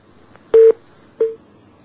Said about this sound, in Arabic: انقطع اتصال.